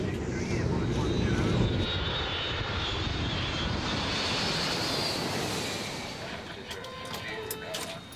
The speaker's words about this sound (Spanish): A las 9.03 p.m., el vuelo 648 hacia Egipto está listo para el despegue.